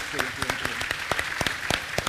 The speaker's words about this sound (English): Aidan, from me, a big round of applause for all of them, because it's brilliant.